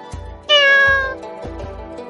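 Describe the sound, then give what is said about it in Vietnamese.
A black cat with red eyes lets out a single loud, drawn-out meow, rich in harmonics and lasting under a second, with a few soft low thuds around it. “Mèo đen thấy Triển Chiêu và Bạch Ngọc Đường đi đến, đột nhiên kêu một tiếng.”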